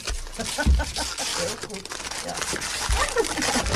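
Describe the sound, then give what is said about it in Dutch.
Gift wrapping paper being torn open at home, with crinkling and ripping bursts mixed under lively overlapping voices as people talk. “En wat ik weet dat het heel erg Antilliaans is om het thuis uit te gaan pakken. Scheur het los, scheur het los.”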